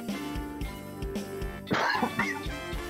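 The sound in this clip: A single harsh cough bursts out midway with a rough tail, standing out against a steady, rhythmic background.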